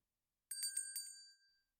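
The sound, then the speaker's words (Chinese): A small bell rings in a quick, bright jingle of a few rapid strikes that ring out and fade to silence, heard alone against a quiet background. “如果听到这个铃铛声的话，一定会变得很放松，很想要在我的声音里睡去吧。”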